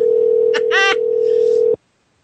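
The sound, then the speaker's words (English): A telephone dial tone hums at one steady pitch as a call is placed to a guest, with a brief voice breaking in over it, before cutting off abruptly into silence. “I'm dialing now for you, sir.”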